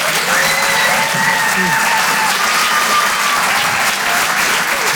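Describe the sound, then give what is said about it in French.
Live studio audience applauding and cheering as a comedian is welcomed to the stage at a stand-up comedy show: dense, loud, steady clapping that fills the whole clip, with scattered shouts and whoops rising above it. “Je vous demande de faire un maximum de bruit, s'il vous plaît, pour David Azria.”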